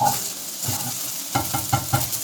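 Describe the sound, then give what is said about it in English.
Rice frying and being stirred in a pan to break up clumps: a steady sizzle under soft scraping, then four quick, evenly spaced scrapes of the utensil against the pan. “Once you see that your rice is breaking up any clumps, and you're just stirring here.”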